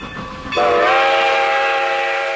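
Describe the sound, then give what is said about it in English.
A train horn blares a loud, steady, chord-like tone. It begins after a brief stretch of rail noise and holds firmly to the end, with the rumble of the train continuing beneath it. “it's getting to the point in the legislative session when trains start to leave the station.”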